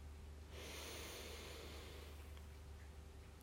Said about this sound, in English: take a nice deep breath with me. Breathe in the light